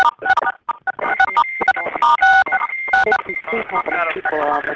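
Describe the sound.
Telephone keypad tones as participants on a large conference call press star six, several short electronic beeps mixed into a busy, loud stretch of overlapping voices and line noise.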